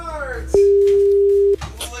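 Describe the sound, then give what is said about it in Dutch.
A telephone ringback tone while placing a call: a single steady, mid-pitched beep about one second long, with people talking just before and after it. “Oké, ja, we gaan nu bellen.”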